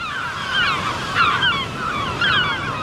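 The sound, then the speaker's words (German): Sea at the North Sea coast: a steady wash of surf noise, with a few bursts of high, chattering bird calls rising above it. “Schön, oder? Das ist der Sound der Nordsee.”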